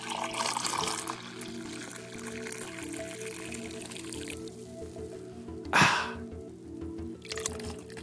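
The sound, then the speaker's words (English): Coffee drips while brewing: a faint, steady trickle and patter of liquid that continues throughout, broken by one brief, louder splash-like burst near the end. “Love the sound of coffee in the morning.”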